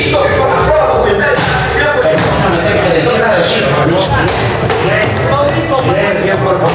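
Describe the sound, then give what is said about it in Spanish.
A shoe banged on a seat in a parliament chamber during a heated confrontation: many loud, dull thuds within a dense uproar of voices. “Y ahí se oye el zapatazo.”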